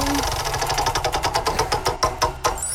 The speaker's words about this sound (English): Let's spin the wheel first and find out what we're playing.